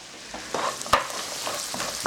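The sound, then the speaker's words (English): Honey glaze sizzles steadily in a hot pan while being stirred to coat the food, with a few soft scraping strokes over a constant frying hiss. “let's say about a quarter of a cup of honey. And this looks like great honey. And we just want to stir it around and get them all coated. I'm going to lower that just a little bit so they don't burn.”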